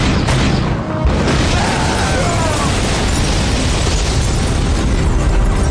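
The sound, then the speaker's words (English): Grenades from a grenade launcher exploding in a dense, continuous roar of rumbling blast noise that lasts several seconds. The noise dips briefly near the start, then stays loud throughout. “he raised the MP-15 and loosed the last of the grenades at the group of villains.”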